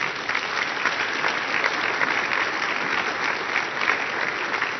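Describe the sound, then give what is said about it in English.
An audience applauds to welcome a speaker to the stage, a dense, steady wash of many hands clapping that holds at an even loudness from start to finish. “So, would you put your hands together? Help me welcome to the stage Victor Leal.”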